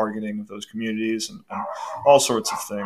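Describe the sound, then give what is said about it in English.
A dog barks and yips in the background, its sounds partly masked by continuous talking in the foreground. “And how hard can you hear that dog in the background?”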